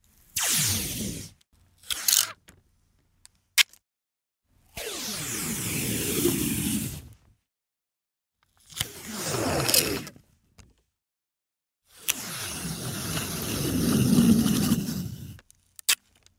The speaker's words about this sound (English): Here's the answer. That was the sound of peeling scotch tape.